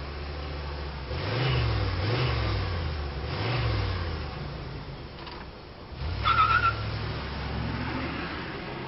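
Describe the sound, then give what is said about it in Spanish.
A car's engine revs as it drives off, rising and falling in a few surging bursts of mid-low motor noise, fairly faint throughout. “Y este, tras devolverles el saludo, subió en el coche y se marchó de allí sin más.”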